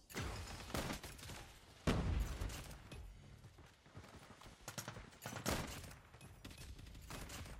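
Gunfire in a video game: several sharp, loud shots at irregular intervals over steady background game noise, with no talking.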